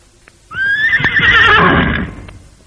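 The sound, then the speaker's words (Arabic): A horse, brought out for jumping over obstacles in an equestrian display, lets out one loud, high, trilling whinny that lasts about a second and a half before fading away. “هاتوا حصان ننط بيه على الحواجز.”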